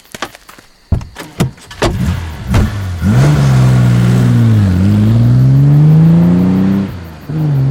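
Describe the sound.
A car drives off to the police station after an arrest. A few sharp clicks and knocks come first, then the engine starts, revs and settles into a loud, sustained drone that dips briefly before carrying on.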